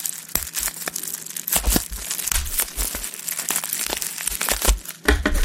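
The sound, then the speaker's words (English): Thin, not very strong bubble wrap packaging being handled and crinkled up close: many crisp, irregular crackles and crinkles with soft low thumps, continuing throughout without talk. “Oh, here. This one has some bubble wrap. Oh, but not strong bubble wrap.”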